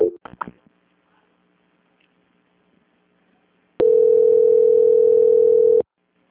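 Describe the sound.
During a call transfer, a loud, unbroken telephone tone sounds alone for about two seconds. It follows a few brief clicks at the start and a long quiet stretch.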